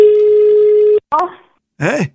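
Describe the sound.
A steady telephone tone sounds alone for about a second during a call to Italy's 113 emergency number, then a short click-like burst, then a voice speaks briefly.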